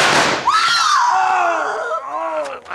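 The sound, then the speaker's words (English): Gunshots in an old western drama, fired to shoot the guns out of two men's hands: a sharp blast opens, followed by a long, wavering whine that slowly falls in pitch. “The next bullets will do more than shoot the guns from your hands.”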